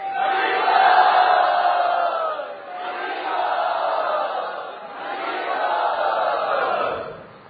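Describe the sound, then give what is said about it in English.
A crowd shouts an enthusiastic welcome for a returning swami at Sri Radha Gopinath Mandir, three long swelling cheers, each rising and fading in turn. “Let us very enthusiastically welcome him back home to Sri Radha Gopinath's Mandir.”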